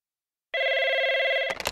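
A telephone rings alone with one steady, bright electronic tone lasting about a second. A brief burst of noisy clatter follows at the end.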